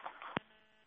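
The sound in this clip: A telephone line cutting off during a phoned-in call from Daykundi: one sharp click breaks the narrow, tinny line hiss, and a faint hiss lingers afterwards.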